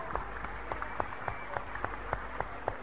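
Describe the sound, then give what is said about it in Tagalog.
A church audience claps for Jesus in steady, evenly spaced beats. The claps are fairly faint and keep a regular rhythm of roughly three or four per second throughout. “I now saw the light and it's more clearer clap for Jesus.”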